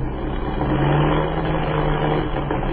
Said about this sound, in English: What is the trouble? The motor is missing.